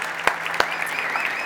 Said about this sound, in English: And I know for some of you that are newer, you're like, man, why do people cheer? Why are they excited about that?